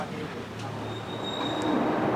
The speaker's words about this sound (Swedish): Och vi fortsätter med dubbeldäckad spårvagn. Ganska kul.